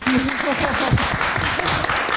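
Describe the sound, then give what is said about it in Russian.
Audience applause, a steady, dense clapping throughout, with a voice speaking over it. “Передаю ваши аплодисменты Ульфу Старку”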